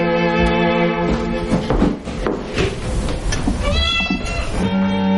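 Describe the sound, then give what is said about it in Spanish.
A black cat meows on the ground floor of a house. The cries are fairly loud and rise and fall in pitch, with other household sounds around them and no talk. “Un gato negro lo sigue”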